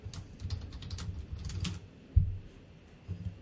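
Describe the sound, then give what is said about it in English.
Typing on a computer keyboard: soft, rapid key clicks in uneven bursts, one sharper tap after a short pause, then a few more keystrokes, all fairly faint. “Let's type a couple more.”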